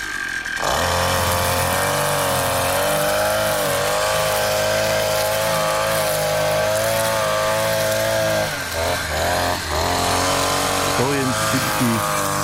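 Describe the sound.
A brush cutter mows the last blades of grass, its engine whining loudly and continuously at a high pitch with slight wavering.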